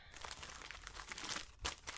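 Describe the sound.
Bubble wrap crinkling as a box is unpacked, a dense, irregular crackle of pops and rustles that runs throughout, with a louder burst near the end and no voices.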